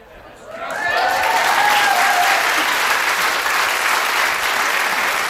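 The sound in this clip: Applause at a radio station celebrating its 63rd anniversary: clapping swells within the first second into a dense, steady, loud ovation that continues evenly to the end.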